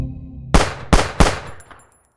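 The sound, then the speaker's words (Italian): Three pistol shots fired in quick succession, each a loud, sharp crack with a short decaying tail, followed by faint ringing. “Nessuno dei tre colpi sparati dalla ragazza centra alcun bersaglio. La sua famiglia rimane sbigottita nel vedere la figlia con in mano una pistola fumante”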